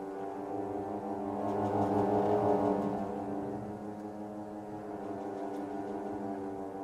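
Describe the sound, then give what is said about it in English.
Two close notes sound together on an organ to mimic a propeller's wah-wah, a sustained low chord that swells through the middle and then eases back, its tone holding steady with a slight pulsing beat. “We can sort of simulate that on the organ by playing two notes that are close together. That sounds something like this.”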